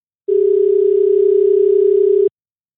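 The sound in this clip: A steady telephone tone sounds while a call is being placed. The single, even, unbroken electronic note holds for about two seconds and then stops, with nothing else heard around it.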